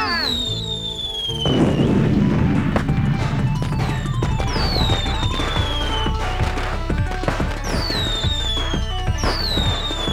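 Fireworks rockets being set off in a radio-play scene: many whistling rockets glide down in pitch over a dense bed of sharp crackling bursts and pops, loud and continuous throughout.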